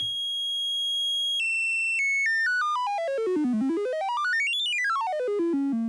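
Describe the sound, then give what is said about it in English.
Synthesized electronic tones in the style of 1970s video game sounds: a steady high note, then a sequence of notes stepping downward in pitch, sweeping to a low note, climbing back high and falling again, each note bright and buzzy. “And of course it sounds very similar to old school games, and it is in fact very close to the way that those 1970s games would have produced sounds.”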